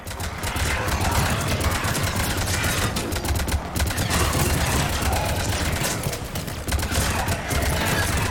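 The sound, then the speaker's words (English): Machine-gun fire in a video game, rapid staccato bursts packed tightly together and loud, rattling on almost without pause across the whole passage. “A locust? Some sort of machine gun thingy?”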